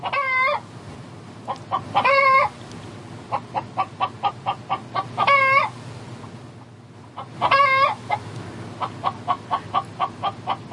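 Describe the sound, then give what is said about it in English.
Chickens cluck in a busy run of short, sharp pulses, broken by four longer, strained harmonic calls that stand out above the steady clucking. “Yeah, well, I need to bring the chicken in, and you know, you prepare them.”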